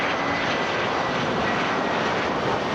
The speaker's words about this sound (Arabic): طوابير من المسافرين وطائرات تقلع وتهبط في تتابع لا يتوقف